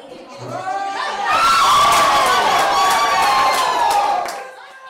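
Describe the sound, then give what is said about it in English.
A crowd at a Super Bowl watch party bursts into cheering and shouts after a play. The noise swells suddenly, holds loud for about three seconds, then fades, with excited voices blending into the roar. “At Eclipse, a smaller group anxiously cheered, or groaned, after every play.”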